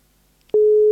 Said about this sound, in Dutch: Oeh, hij gaat over.